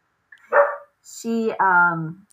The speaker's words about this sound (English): you might hear my dog in the background.